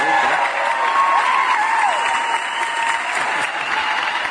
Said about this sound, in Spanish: Denle un aplauso. Claro que sí, va un aplauso a la comadre.